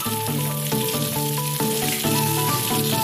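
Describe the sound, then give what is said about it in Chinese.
Cut squash, zucchini and purple potatoes frying in rapeseed oil, giving a steady, dense sizzle with constant crackling that holds an even loudness throughout. “当地特色的米冬瓜、西葫芦、紫皮土豆切块后放入菜籽油中过油，炸出水分后便可捞出。”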